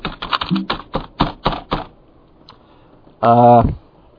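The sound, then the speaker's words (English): Typing on a keyboard with boxing gloves on: a quick run of about eight muffled, thudding taps, followed after a pause by one brief, louder burst. “How do you type with boxing gloves on? Like this.”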